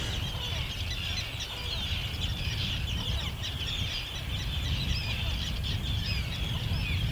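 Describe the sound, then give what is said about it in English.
Common and Arctic terns call from a nesting colony of dozens of pairs on a harbour island off Tiree, a dense, continuous chorus of shrill, overlapping cries that stays steady and fairly faint. “Tiree, and this or these are common and Arctic terns, and they're nesting on an island uh, in the harbour just opposite where we are staying”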